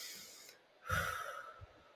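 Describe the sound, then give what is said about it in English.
A single deep breath, soft and airy with a short low puff near its end, faint and on its own. “put your hand on your heart and let's take a deep breath.”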